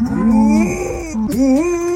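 Dog mooing like a cow instead of barking, two drawn-out low tonal moo-like calls with wavering pitch and rich harmonics, loud and alone with a brief dip between them.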